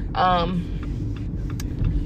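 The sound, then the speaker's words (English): Steady low road rumble from inside a car being driven, with a brief voice-like sound near the start over the constant drone. “what the fuck is this car doing? Yeah, I'm driving guys, sorry. So you're about to hear my whole car ride”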